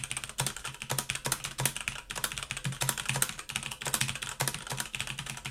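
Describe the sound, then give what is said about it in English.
A mechanical keyboard with Cherry MX Red switches clatters through general typing: many quick, fairly soft keystrokes in a steady, uneven stream with no talking. “Cherry MX Red, general typing.”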